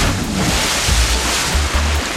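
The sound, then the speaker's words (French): Loud water sound effect for a dive into a pool: a dense, steady rushing wash of splashing noise that fills the whole moment, with no voices. “J'envoie Toff dans la piscine d'énergie. Le petit plongeon habituel, bien entendu.”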